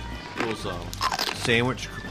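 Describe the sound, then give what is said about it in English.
Crunchy bites into a Lion wafer candy bar with thin layered wafers, a few brittle crackling bursts heard under people talking. “We have little layers mm-hmm. and they're crunchy. Yeah, the wafer. But they're the wafer things, yeah.”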